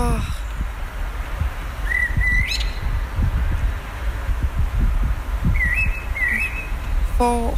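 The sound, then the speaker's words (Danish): A bird sings outdoors in a few short, clear whistled phrases, some rising in pitch, heard over a loud, constant low rumbling noise. “den der fugl, den skal fandme optages. Det skal ikke være forgæves. Så gik jeg ud igen. Så her er fuglen.”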